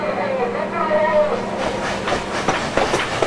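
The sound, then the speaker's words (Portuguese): A train running on rails on a line in Lebanon, a steady rolling rumble with a faint hiss, turning into rhythmic clickety-clack beats of the wheels over rail joints in the second half. “Já esse som não se escuta mais no Líbano. Os trilhos não levam a lugar algum. Essa era a estação de Riak.”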